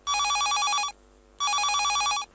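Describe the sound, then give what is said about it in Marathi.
Telephone ringing for an incoming call: two loud, even bursts of a warbling electronic ring, each under a second long, separated by a short silent pause. “ऐकूया तर कार्यक्रमातील हा पहिला phone.”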